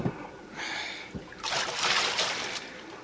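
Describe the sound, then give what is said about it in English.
A wooden paddle splashes and sloshes as a boat is quietly rowed across a bay. A few soft strokes are heard, fairly faint, with a longer swishing splash in the second half. “One more sound from that paddle, and I will shoot.”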